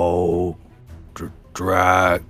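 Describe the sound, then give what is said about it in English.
A voice imitates a creature groaning as it begins to move on a throne: two long, loud, low voiced groans with a short, noisy rasp between them. “You see the creature in the throne begin to move. And you all hear it groan.”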